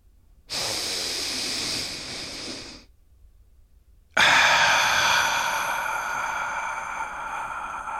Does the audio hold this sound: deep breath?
yes